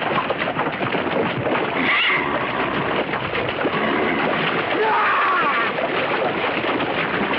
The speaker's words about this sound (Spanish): quedó enganchado en el estribo y el caballo lo arrastra.